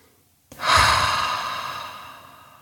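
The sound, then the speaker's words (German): One deep, audible breath taken during a guided relaxation exercise begins abruptly after a moment of silence and slowly fades away over about two seconds. “Nimm ein paar ganz tiefe Atemzüge, schließ die Augen, falls du das noch nicht getan hast.”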